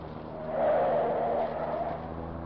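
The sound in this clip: A dramatized car turning a corner, made as a sound effect: a smooth, hissing engine-and-tire rush swells to its loudest partway through, then eases off without fading out completely.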